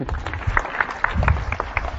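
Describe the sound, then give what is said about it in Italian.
A lecture audience applauds a demonstration with sparse, uneven clapping: scattered individual claps from a modest group, brief and irregular. “Potete fare un applauso.”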